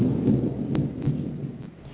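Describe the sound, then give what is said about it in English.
Thunder rolls as a low, deep rumble that swells and dips in a few broad surges, then gradually fades toward the end. “Is he waiting outside your window? Is that why the thunder is there?”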